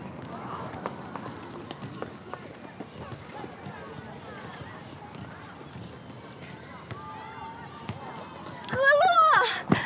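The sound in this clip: Running footsteps of a woman: quick, light, repeated footfalls that go on steadily, with people talking and a louder voice near the end.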